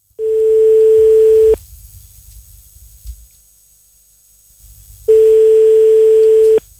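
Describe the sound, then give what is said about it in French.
Ringback tone on a telephone line after a number is dialed: two long, steady mid-pitched tones, each about a second and a half, separated by several seconds of faint line hiss. “Tu peux composer le numéro de téléphone?”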